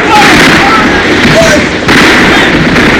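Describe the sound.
Dense, crackling gunfire fills a radio drama battle scene between patriots and enemy troops, a continuous noisy barrage without clear separate shots, heard under loud shouting voices.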